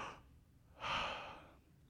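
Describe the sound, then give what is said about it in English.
A deep breath, drawn in as a faint, airy inhale that swells and slowly fades, following a short, softer breath at the start. “Take a deep breath. Join me right now.”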